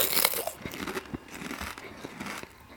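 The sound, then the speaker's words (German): Potato chips crunched while being eaten: a continuous run of crisp, crackly bites mixed with crinkling, fairly quiet and steady throughout. “Wenn ich den Mund aufmache, ist lauter. Ja, jetzt musst du aber auch mal aufhören mit Chips essen”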